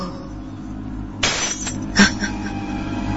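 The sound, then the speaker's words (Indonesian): Glass breaking in a kitchen: a sudden shattering crash, followed by a few sharp tinkling clinks as pieces settle. “tiba-tiba aku dikagetkan dengan suara gelas pecah dari arah dapur.”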